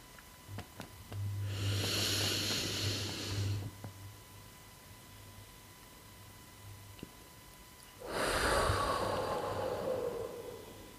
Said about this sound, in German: Tief einatmen, einen Augenblick halten und die Luft wieder ausatmen.